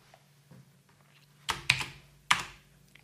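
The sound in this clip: A few keystrokes on a computer keyboard sound as sharp, crisp clicks at irregular spacing, with a faint tap before them and quiet in between.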